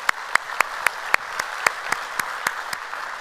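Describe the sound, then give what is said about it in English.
Church audience applause welcoming visitors to a service, with one set of sharp claps cutting through at a brisk, even beat over a softer, continuous wash of clapping. “So if you would, put your hands together, welcome them to our service here today.”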